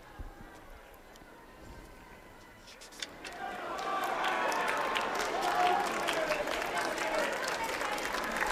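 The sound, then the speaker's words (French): Nuns applauding the pope among a crowd: a quieter opening gives way to a swell of steady clapping and crowd noise that holds to the end. “les religieuses, nous voyons comment ils applaudissent et crient « Vive le pape !»”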